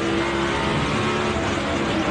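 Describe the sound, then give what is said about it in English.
A Toyota Camry NASCAR race car engine roars under acceleration, a loud, dense, steady mechanical drone with a strong low rumble and a continuous high whine. “This is a Camry on NASCAR with Ty Gibbs behind the wheel. Now you're up to speed.”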